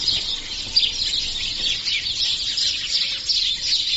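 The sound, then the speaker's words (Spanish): Dawn chorus of many birds at the Doñana nature reserve in Spain, a dense, continuous layer of high chirps and trills overlapping without pause, fairly loud and with no voices. “Así de sonoro es el despertar en el laboratorio al aire libre más importante de España. 350 tipos de ave distintos han sido vistos en estas instalaciones”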